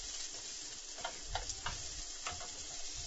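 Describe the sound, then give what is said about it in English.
Onions sautéing in a pan hiss with a quiet, steady sizzle, broken by a few soft crackles and pops and heard alone without talk. “I'm just going to throw in some onions.”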